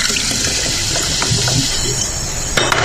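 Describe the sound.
Fizzing, sloshing liquid of a drink with soda and ice being shaken, a steady hiss of even loudness throughout, with a couple of brief sharper knocks near the end.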